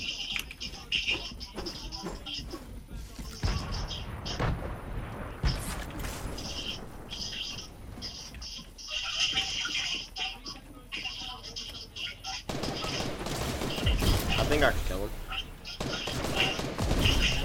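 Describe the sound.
Shotgun fire and a shockwave in a video game: a few loud, sharp blasts over dense, continuous game noise, with voices talking throughout.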